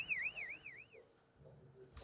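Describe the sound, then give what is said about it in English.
Warbling electronic alarm warning that a severely damaged building in Playa Grande could collapse during a rescue by Costa Rican rescuers; a faint, high tone sweeps up and down for about a second, then fades. “these Costa Rican rescuers were forced to quickly exit from the rubble of a severely damaged building in Playa Grande when the alarms were activated, warning that the building could be about to collapse.”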